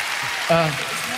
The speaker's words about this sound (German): Ich melde mich hier aus Hamburg. Und zwar vom Deutschen Radiopreis 2026. Und hinter mir klatscht ganz Hamburg.